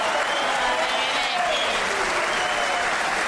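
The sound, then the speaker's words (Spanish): An audience gives an ovation, with dense, steady applause at an even loudness from start to finish. “Peor todavía será la ovación tributada a nuestro Gillespie.”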